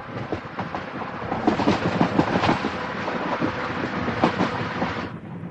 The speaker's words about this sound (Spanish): Al día siguiente el tren continúa su trayecto.